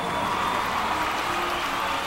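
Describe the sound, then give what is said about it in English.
A lively crowd applauds at an evening event, with steady, dense clapping that stays even from start to finish. “Wonderful. I love a lively crowd.”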